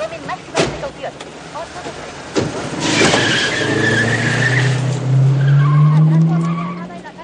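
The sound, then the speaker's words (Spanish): A police car speeds off in a 1990 action film: two sharp thuds come first, then loud tire screeching and a roaring engine that builds and holds until the end. “Strom mete a Nick en un coche de policía y junto con Liesel y otro de sus abuesos se marchan a toda prisa.”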